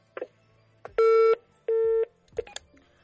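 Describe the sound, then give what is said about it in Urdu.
Telephone line tones from an incoming call: two steady, buzzy beeps of about a third of a second each, framed by faint clicks and brief electronic blips. “ہمیں ایک کال آ رہی ہے بار بار، پہلے collar لے لیتے ہیں۔”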